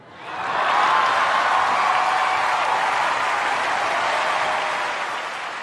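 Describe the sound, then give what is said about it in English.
Sustained applause from an audience giving a standing ovation, a dense, even roar of clapping that swells in within the first second and holds steady before easing slightly at the end. “What you can't see here is the audience giving Kanye West a standing ovation.”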